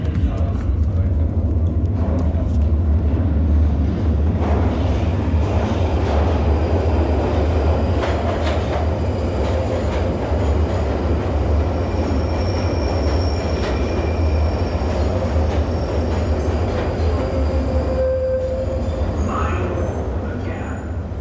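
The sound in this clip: A rail train running with a continuous heavy rumble, squealing wheels and clicking along the track. The sound stays loud and steady throughout.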